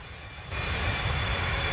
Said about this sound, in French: Attachez vos ceintures, nous allons tout de suite décoller.